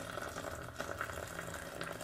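Boiling water being poured over eggs in a pot, a faint, steady splashing and gurgling stream that continues without a break.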